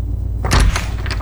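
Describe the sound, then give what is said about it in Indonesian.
An unlocked door is opened: a brief burst of thumps and rattles in the middle of a short stretch of low rumble. “Buka saja pintunya. Tidak dikunci kok.”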